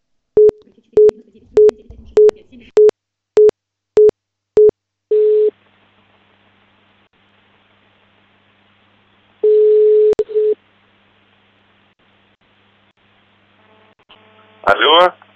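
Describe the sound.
A telephone busy tone plays after the other party hangs up. About eight short, evenly spaced beeps are followed by longer tone bursts separated by silence, and a voice is heard briefly at the end.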